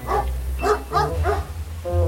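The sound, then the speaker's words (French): A dog barking on a walking trail beside freshly cut hay fields, a few short harmonic barks spaced apart over a steady low rumble. “Oui, tu fais ton boulot de chien. T'inquiète pas.”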